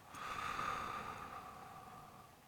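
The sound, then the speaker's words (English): A slow, deep breath during a guided breathing exercise, drawn in through the nose and out through the mouth: a soft, airy hiss with a faint whistling edge that swells and then gently tapers, quiet and alone. “taking a deep breath in through your nose and out through your mouth”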